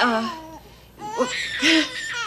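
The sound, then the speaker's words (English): A newborn baby boy cries in short, wavering whimpers and wails, rising and falling unevenly. “What do you do when he cries like that? You pick him up.”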